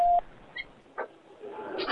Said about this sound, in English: Please leave a message after the beep, and I will get back to you as soon as I can.